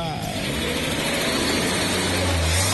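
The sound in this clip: Engine noise from a vehicle accelerating at the start of a trip, a steady loud low rumble with broad road-like noise that holds throughout.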